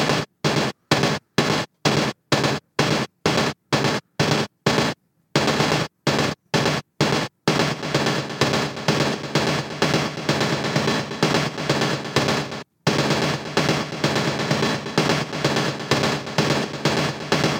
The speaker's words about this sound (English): Halfway through there, that really kind of lo-fi synth percussion thing comes in. This is what it sounds like by itself.